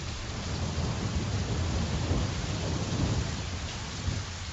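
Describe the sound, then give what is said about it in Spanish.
A thunderstorm with heavy rain: a loud, continuous hiss of rainfall layered over deep rumbling thunder, steady throughout with no voices. “Tormenta.”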